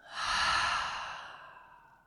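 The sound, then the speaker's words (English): A single long cleansing breath released through the mouth during a yoga breathing exercise, a soft, breathy sigh that swells quickly and then fades slowly over about two seconds. “Let's take a cleansing breath. So inhaling in through the nose and out through the mouth.”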